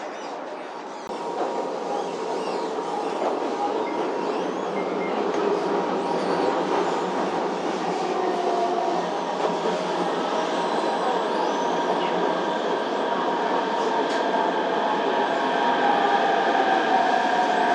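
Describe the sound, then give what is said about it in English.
A subway train approaches a station with a steady, loud rumble and faint rail clatter that continues throughout and grows slightly louder toward the end. “This train is bound for Changping 西山口. The next station is Life Science Park. Please get ready for your arrival.”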